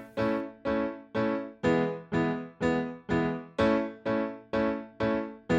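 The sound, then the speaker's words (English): An A major chord and an E major chord, both in root position with A and E in the bass, alternate at a steady, even pace. The strikes are many and evenly spaced, each ringing and then fading before the next, with no voices. “If they were in root position with an A and an E on the bottom, those two chords would sound like this.”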